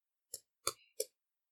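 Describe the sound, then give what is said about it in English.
A pack of Magic cards being cracked open: three crisp, crackling bursts of packaging separated by short silences, with a brief thin tearing note trailing the second burst. “that's the good cardboard crack”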